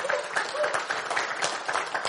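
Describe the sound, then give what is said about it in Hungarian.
Applause from a church audience: a dense, steady patter of clapping through the whole clip, with a voice faintly audible beneath it. “most nem egy tapsot akartam kicsikarni”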